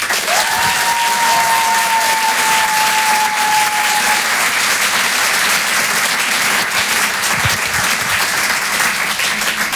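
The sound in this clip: Audience applause greets a comedian's first set on a comedy show: steady, dense clapping that holds at a constant level throughout, with a long high whistle held over the first few seconds.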